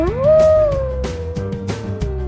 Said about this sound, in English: The wolf lives in the jungle.